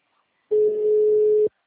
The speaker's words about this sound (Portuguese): Só chama e não atende. Já liguei duas vezes.